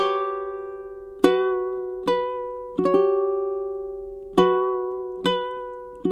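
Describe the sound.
A ukulele played to imitate a Japanese koto gives a slow, uneven series of single plucked notes. Each note rings bright and clear, then fades before the next pluck. Nothing else is heard.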